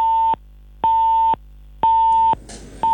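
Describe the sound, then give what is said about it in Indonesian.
Telephone busy tone after a call with a reporter is cut off: steady mid-pitched beeps switching on and off in an even half-second rhythm, with a brief burst of hiss between two of them. “Ya, terputus sambungan telepon kami dengan reporter kami.”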